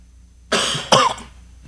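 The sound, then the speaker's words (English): A person who feels overheated coughs twice. A longer harsh cough is followed by a shorter, sharper one, with quiet before and after. “starting to cough because I'm overheated”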